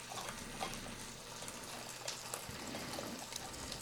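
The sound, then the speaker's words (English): Soft, continuous wet trickling as sauce is pushed through a mesh strainer with the back of a spoon. The faint liquid noise runs steadily throughout, with no voices. “I find that kind of stirring it and then pressing with the back of the spoon up against the mesh will get it all the way through.”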